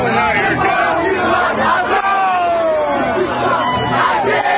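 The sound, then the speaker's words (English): Protesters shouting outside a tower in New York City in the evening, a loud, unbroken roar of many voices yelling and cheering together throughout. “This is the sound of protesters outside Trump Tower in New York City last evening.”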